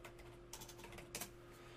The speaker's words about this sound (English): Hold on. I'm gonna type in Chicago.